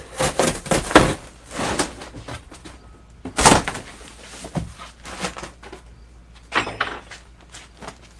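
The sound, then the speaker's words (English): A cardboard box is cut open during an unboxing in a home workshop, with irregular bursts of scraping, slicing and tearing. One louder rip stands out near the middle, and quieter scratches follow between pauses. “All right, well, we're going to cut the box open so I don't break anything.”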